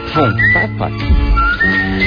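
A whistling trio performs a bright, high whistled melody from a film soundtrack, with sliding notes and steady tones carried over a busier lower-pitched backing.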